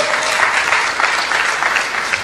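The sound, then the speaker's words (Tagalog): A church audience applauding during a worship service: dense, steady clapping from many hands that holds at an even, loud level throughout without pause. “Palakpakan po natin ang Panginoon.”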